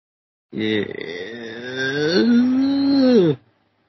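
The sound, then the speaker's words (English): A cow moos once in a single loud, drawn-out call lasting about three seconds, with a steady, hoarse tone that cuts off sharply at the end. “Where'd that cow come from?”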